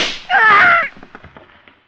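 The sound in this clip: A single sharp gunshot fired at a man during an indoor confrontation, a loud report with a brief ringing tail, then a few faint scattered ticks trailing off into quiet.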